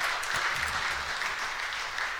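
An audience claps steadily to welcome a new associate athletic director at a Blue Raider athletics event. The dense, even applause continues from start to finish.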